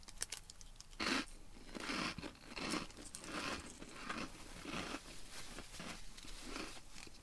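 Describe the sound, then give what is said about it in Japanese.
Crunching and chewing of a limited-edition Setoshio salted lemon flavoured snack. Faint, irregular crisp bursts mix with light crinkling, and no one talks. “ちょっと食べてみたいと思います。瀬戸塩、塩レモン味、期間限定でございます。ちょっといただきます。”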